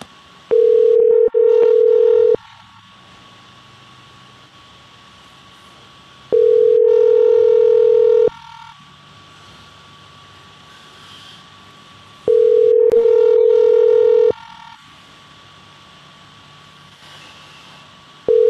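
Telephone line tones during an outgoing call: a steady low beep sounds in bursts of about two seconds, repeating three times with long pauses between, and a fourth begins at the end, over a faint hiss.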